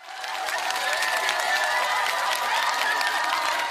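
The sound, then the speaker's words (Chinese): An audience applauds to welcome a guest onto a stage, the clapping building quickly over the first half second and then holding as a steady, dense patter. “掌声在哪里 ？”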